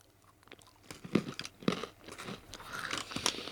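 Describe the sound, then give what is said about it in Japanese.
Crunching and chewing as macadamia nuts and cheese are eaten together in one mouthful, with several crisp bites and a run of crackly, moist chewing, moderately loud and without talk. “いただきますじゃあこのマカダミアとチーズをいっぺんに”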